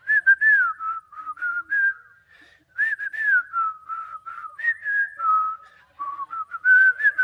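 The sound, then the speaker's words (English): Someone whistles the theme music of the old Robin Hood cartoon, a bouncy melodic tune of many short notes with a brief pause between phrases. “Anybody seen the cartoon, the old cartoon version? Theme music's like this. You know this?”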